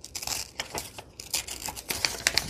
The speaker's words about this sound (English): So I think I'm just going to tear out botanical composition and use that.